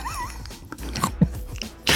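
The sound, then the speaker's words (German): Noises from police dogs: short, irregular bursts of snuffling and mouthing with a brief whine near the start, fairly loud throughout, ending in a louder burst of noise. No one speaks. “Ja, sind mal ein paar stramme Hunde.”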